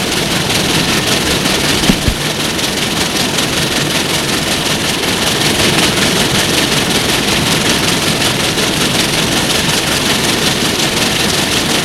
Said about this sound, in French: Le train s'était arrêté à une gare.